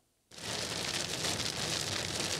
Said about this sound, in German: Am frühen Abend zieht das Unwetter mit Regen und Sturm über Niedersachsen.